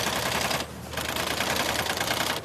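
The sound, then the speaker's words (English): A triple-needle industrial sewing machine in a boot factory stitches rubber boot bottoms to leather uppers. Its loud, rapid mechanical clatter halts briefly, resumes, and then stops near the end. “runs a triple needle sewing machine that stitches the rubber bottoms to the top leather part of the boot”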